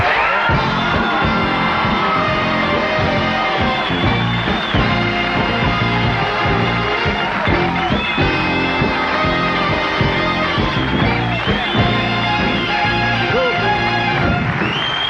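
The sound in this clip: Audience cheering, whooping and yelling for Ringo Starr's entrance at a 1989 live show, a loud, dense and steady roar of crowd noise that holds for the whole stretch.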